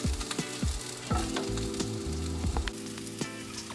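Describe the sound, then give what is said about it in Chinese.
Onions sizzle steadily in a pan as they are stir-fried until deep golden brown, with a spatula scraping in short strokes through the hiss. “好，那我们就等这个洋葱你炒到焦黄的程度，真的是要焦黄，这样的洋葱汤喝起来才会是好吃的。”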